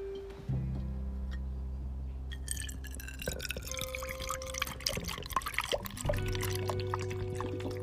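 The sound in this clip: Water is poured into a container to make paint water while painting on a bed, a steady liquid pour with scattered drips and splashes running continuously throughout.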